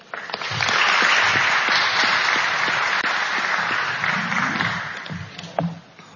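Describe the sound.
An audience applauds to welcome a speaker at a NASA aeronautics event, with steady, dense clapping from many hands that holds for several seconds and then thins and fades near the end.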